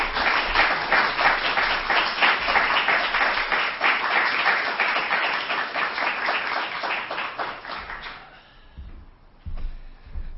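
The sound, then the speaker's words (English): An audience gives a speaker a warm welcome with dense, sustained applause for about eight seconds, which then thins and fades, followed by a short final burst of clapping. “Would you please give a real warm welcome to Dr. Jody Dillow.”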